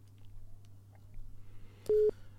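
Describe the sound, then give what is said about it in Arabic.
A single short, steady telephone line tone from a call-in line that fails to connect. The beep sounds once near the end, loud against faint low hum and quiet background noise. “معنا اتصال وللاسف الشديد الخط مش بيجمع”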